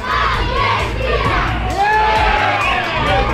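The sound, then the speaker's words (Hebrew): A crowd of residents gathered for a shared viewing shouts and cheers loudly and continuously after an Argentina goal in a football match, with many high, excited voices overlapping. “באור הנר עשרות תושבים התאספו לצפייה משותפת ולחגיגות הניצחון. כתבתנו שקד ויקינסקי שמעה אותם. הנה גול של ארגנטינה.”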